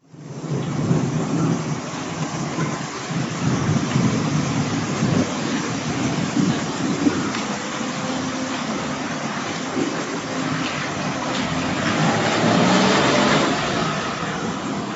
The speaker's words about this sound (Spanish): ¡Pero qué tormenta! Y además se escuchan las cigarras de fondo. Eso es. Estos chaparrones repentinos con truenos y relámpagos son bastante comunes durante el verano en Japón.